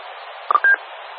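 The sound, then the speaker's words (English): Radio repeater tone after a transmitter unkeys, signalling a UHF station: a brief lower beep followed at once by a longer higher beep, heard over a steady radio hiss. “So when I unkey, you'll hear a low, high tone.”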